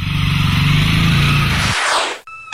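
Motorcycle riding off on a small-town street: a loud, low engine rumble drones steadily, then drops away into a fading whoosh, followed by a brief separate sound at the end.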